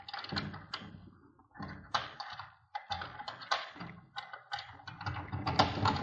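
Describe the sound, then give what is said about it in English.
Metallic clicking and scraping from a door lock being picked, with many irregular small clicks, taps and rattles of the mechanism in quick bursts and no voices. “Well, this lock doesn't look as though it'll be too difficult to pick. Let's see.”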